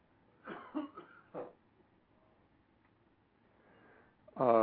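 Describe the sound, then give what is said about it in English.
A person coughs during a spoken talk: a few sharp, separate coughs in quick succession, then a quiet pause and a louder burst of sound at the very end. “I'm sorry, I didn't mean to be coughing on you.”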